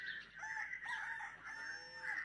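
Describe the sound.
Rooster crowing: faint, drawn-out calls with wavering pitch repeat across the stretch, heard alone with no voices.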